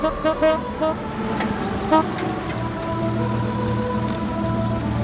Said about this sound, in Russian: Через толпу пробираются два ретро-автомобиля.